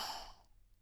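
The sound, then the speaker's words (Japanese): A soft, sigh-like breath out during a slow relaxation breathing exercise, airy and breathy, fading quickly to quiet. “それじゃあリラックスするためにゆっくり深呼吸。吸って吐いて。”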